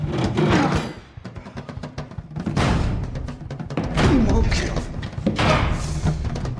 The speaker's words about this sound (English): He tries the broken door. He shoves his whole body against it.